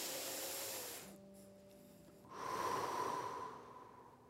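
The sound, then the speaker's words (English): A single deep breath, one soft, airy rush of air that swells and then fades away, heard on its own with no talking. “Now what I want you to do is I want you to take a deep breath.”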